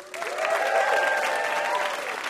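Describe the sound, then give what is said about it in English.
Applause from the live audience of a puzzle quiz show swells quickly and holds as a steady wash of clapping for about two seconds. “How about a hand for our VIP, Adam Rappaport?”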